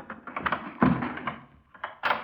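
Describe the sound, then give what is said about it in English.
A door is kicked open with regulation police boots, giving a few dull, faint thumps, one heavier thud in the middle and a sharper knock at the end. “Then I'll open it. Stand clear. Some use for regulation police boots after all.”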